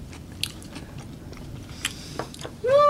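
Someone bites into and chews a fresh, crisp tomato, producing a series of sharp crunches and wet chewing clicks at a moderate level. A short voiced hum ends the sequence.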